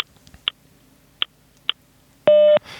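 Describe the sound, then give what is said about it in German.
German telephone talking-clock time signal: three sharp, faint ticks spaced apart, then a single loud, steady electronic beep tone, bright and harmonic-rich, cutting off abruptly. “Wir alle kennen die Zeitansage. Die sagt uns beispielsweise die Zeit an. Das klingt dann so. Beim nächsten Ton ist es 12:14:00.”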